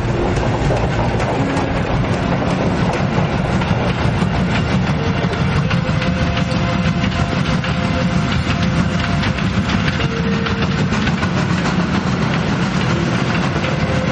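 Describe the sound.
A train bound for Auschwitz, with its locomotive, a soldiers' car and cattle wagons, runs along the track in a constant loud rumble. An unbroken clickety-clack of wheels over rails carries through the whole stretch.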